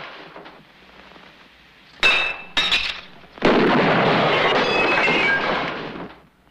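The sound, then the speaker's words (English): Window glass shattering as a barman smashes it with a rifle during a gunfight at a railway-side hotel: two sharp, bright crashes, then a longer, loud, noisy burst that fades out. “smashes a window, and fires at the hotel”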